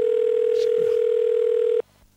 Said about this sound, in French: Alors attendez, j'appelle un ami. Bougez pas. C'est en direct, hein. Est-ce qu'il va répondre?